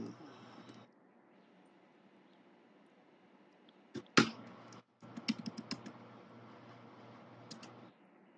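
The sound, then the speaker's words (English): Typing on a computer keyboard: after a long near-silent stretch, a loud burst of key clicks, a brief pause, then a run of quick, irregular keystrokes over a faint steady hum. “Hold on. I'm trying to type something in here.”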